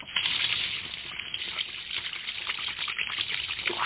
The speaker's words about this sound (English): There's nothing like a nice, free-flowing drain.